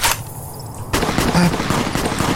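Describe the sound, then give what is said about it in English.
Video game gunfire: a sharp burst of shots, a short lull, then loud, dense, rapid fire that continues to the end. “What is the shooting? There's shooting happening over there.”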